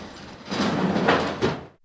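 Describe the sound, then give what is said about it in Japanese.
A door of a real estate office facing an alley opens with a broad, rushing slide lasting well over a second, swelling briefly near the end before cutting off abruptly. “路地に面した不動産屋のドアが開き、中から笑顔を浮かべた店主が出てきました。”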